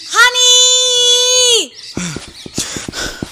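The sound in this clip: A drawn-out, high, wailing scream held for over a second before trailing off, followed by a few short, broken vocal cries.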